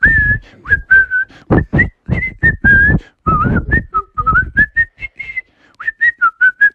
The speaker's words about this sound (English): And he got back to whistling a little bit.